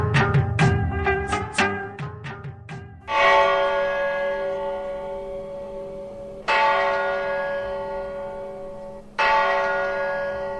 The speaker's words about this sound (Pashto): دا د ملګرو ملتونو په مرکزی دفتر نیویارک کې لګیدلې د سولې د زنګ په نامه د هغه زنګ آواز دی